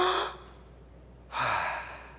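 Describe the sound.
A person takes a deep breath in and out, heard as two soft, airy rushes of breath with a quiet pause between them. No one speaks.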